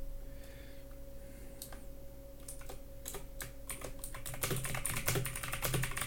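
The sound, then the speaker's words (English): Typing on a computer keyboard: irregular flurries of light, quick key clicks over a faint steady hum. The clicks become denser and louder in the last couple of seconds. “Well, I'm going to actually type a reply.”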